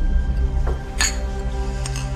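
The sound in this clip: Glasses clinking together in a toast, a few bright, short chimes over a low background rumble.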